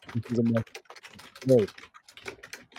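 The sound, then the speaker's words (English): Keyboard typing: a rapid, irregular stream of light clicks runs through the whole clip, with a voice speaking briefly over it in two short bursts. “since I can hear her typing, you can hear her typing.”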